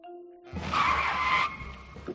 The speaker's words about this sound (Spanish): No llevamos mucho tiempo en el coche, es verdad, cuando de repente volví a frenar en seco.